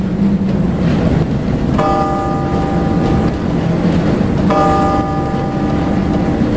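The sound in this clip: A bell striking twelve o'clock in an old castle: two resonant, ringing strikes a few seconds apart, each slowly decaying over a steady background noise.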